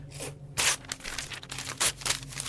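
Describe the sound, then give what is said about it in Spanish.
Paper tearing as a written confession document is ripped up, several rough, crackling ripping bursts of varying loudness with brief pauses between them, and no voices. “No puede romper la confesión. Sí puedo.”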